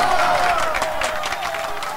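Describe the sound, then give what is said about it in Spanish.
A crowd applauds with steady, continuous clapping, a dense wash of sound that holds at an even loudness from start to finish. “En Operación Valladita de la Sabrosona, el aplauso del día.”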